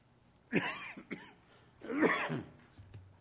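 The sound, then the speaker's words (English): A few faint, rough coughs from a man after a cold drink come in two short bursts separated by a brief pause. “I just drink cold, and cold drink makes me cough, but I don't have the coronavirus, so don't be concerned.”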